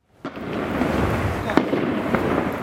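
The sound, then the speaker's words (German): Automatic weapons fire during armed clashes near a refugee camp in Jenin. A few sharp cracks stand out over a dense, rumbling, noisy background. “Salven von automatischen Waffen.”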